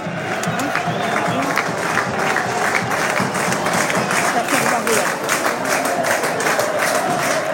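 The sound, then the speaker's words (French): The home crowd in Pau applauds and cheers its team in the closing seconds of a home win. The clapping and cheering are loud, dense and unbroken from start to finish. “Les encouragements du public palois.”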